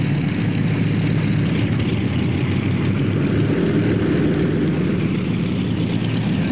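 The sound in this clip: Aircraft engine roaring as an airplane takes off, a loud, steady, unbroken drone with a deep low rumble that holds throughout.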